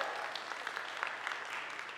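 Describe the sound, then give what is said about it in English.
Church audience applause for the guest speaker's wife, a dense, steady patter of many hands clapping at a fairly faint, even level throughout. “Please give a round of applause to my wife.”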